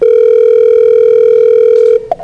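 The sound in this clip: An outgoing call rings without being answered: a loud, steady ringback tone holds for about two seconds, then cuts off, followed by a couple of faint clicks.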